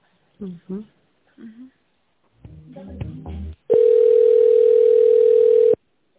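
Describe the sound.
Steady telephone tone while a call is being transferred, a single flat, continuous pitch holding for about two seconds at loud level, following a stretch of brief speech.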